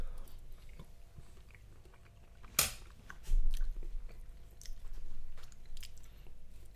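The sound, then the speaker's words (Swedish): People chewing and biting into a garlicky dish make soft, faint mouth sounds throughout, with one sharper crunch partway through. “Ja, vi äter.”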